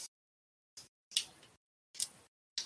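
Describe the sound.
Dice are grabbed and rolled during a tabletop role-playing game. Five short, faint clattering bursts are separated by silence, and the middle ones run longer with a trailing rattle.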